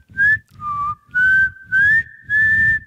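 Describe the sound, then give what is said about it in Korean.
A person whistling a freshly improvised tune: five clear, bright, sustained notes in an unhurried rhythm, each carried on audible breath noise, the first two dipping lower before the later notes level off and rise. “마지막이나 초반쯤에 여유로운 척 하려고 휘파람 소리 넣는 경우 있거든요”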